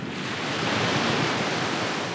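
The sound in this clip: Sea waves breaking on a winter shore: a steady, full, low roar of surf that swells gently and never drops away, with no separate crashes standing out.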